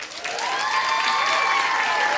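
An audience bursts into loud, dense applause and crowd noise to welcome a co-host. The clapping holds steady through the whole short burst.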